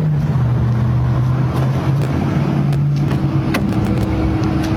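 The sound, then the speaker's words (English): Low, steady drone of a Waymo driverless robotaxi car, a constant hum with a few brief sharp ticks scattered through it and no voices. “time for me to take my driverless ride to run my errand.”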